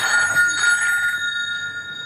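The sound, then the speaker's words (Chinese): A telephone rings with an incoming distress call, a single bright electronic ring with steady high tones that fade slightly. “这是一通求救电话。”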